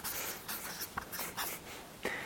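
Handwriting on paper makes soft scratchy strokes. Several short, faint scraping bursts are separated by brief pauses, with no talk.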